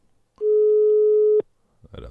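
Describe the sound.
A phone call connecting tone sounds as a single steady, mid-pitched electronic beep lasting about one second. It ends abruptly, and a brief voice follows near the end.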